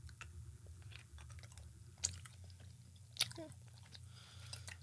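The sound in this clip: Chewing on lemon-flavored candy, with soft mouth sounds and two sharper crunches standing out over a low, steady hum.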